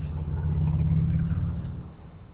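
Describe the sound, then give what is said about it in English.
Steady low rumble of a car engine while driving, even and continuous with no voices, easing off slightly near the end. “Hold on a minute. I'm driving.”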